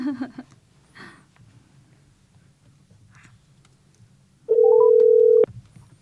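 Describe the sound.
A telephone call connecting: after near quiet with faint low noise, a single steady mid-pitched ringback tone sounds for about a second, then cuts off.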